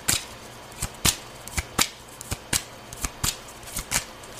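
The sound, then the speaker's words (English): Tarot cards being shuffled, heard as a quick run of about a dozen crisp, papery riffling snaps in an uneven rhythm, each sharp and short, with no talking. “A lot of cards just fell out, and I'm going to take all of them.”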